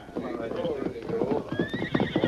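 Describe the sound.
Saddled horses whinny and clip-clop, a sharp whinny rising over a quick, uneven patter of hooves against a dense, noisy background.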